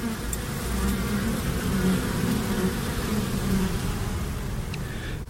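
Honeybees buzzing at a school beekeeping site, a dense, continuous drone of many insects that stays loud and steady throughout.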